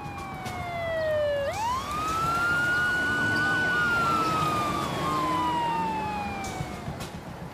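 A police patrol car siren wails, loud and alone: the tone sinks, then sweeps sharply upward, then holds high before sliding slowly down again.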